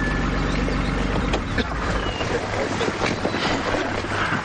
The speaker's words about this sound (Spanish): Al poco llega Sacristán en un coche.